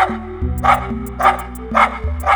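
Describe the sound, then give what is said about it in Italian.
A small female dog barks a few sharp, high yaps at regular intervals over a sustained tonal background. “Pochi metri più avanti, l'apo incrociò la vicina e la sua cagnolina, Stella, che prontamente si mise ad abbaiare.”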